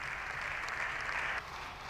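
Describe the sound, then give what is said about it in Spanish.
Sustained applause fills a parliamentary chamber in honor of a party president, a dense and steady wash of clapping with no voices that eases slightly toward the end. “Siguen los aplausos al presidente del Partido Popular, Alberto Núñez Feijóo.”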